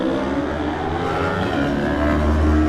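A Kawasaki Z650 motorcycle engine in a road race holds a loud, steady drone that swells slightly toward the end.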